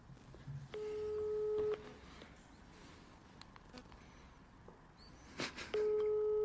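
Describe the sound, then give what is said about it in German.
Telephone call tones as a call is placed: two steady, electronic beeping tone bursts, one early and one at the end, with quiet background noise between them. “Warte mal, kann ich den anrufen?”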